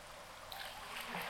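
Hot spring water flowing in a soft, steady trickle, a faint continuous gurgling wash with no break or clear individual splashes.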